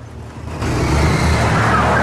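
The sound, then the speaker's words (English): A car driving off: a low engine rumble that is quiet at first, then swells abruptly into a loud, steady roar as the vehicle pulls away. “Glancing around, he drives off, leaving a note on the windscreen.”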